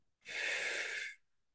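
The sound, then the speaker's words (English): A single long breath during a guided breathing meditation: a steady, soft, breathy hiss lasting about one second, alone and without talk. “Inhaling from the heart of God through your body, all the way down to the heart of Source, to the heart of Gaia. Exhale, coming back up all the way to the heart of God.”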